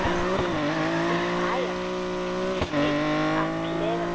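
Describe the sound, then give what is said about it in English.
A car engine drones steadily while driving in a racing video game, its tonal harmonics holding a fairly even pitch, with a brief dip near the end before the engine note resumes. “Wait, why am I driving? I'm driving the wrong side of the road.”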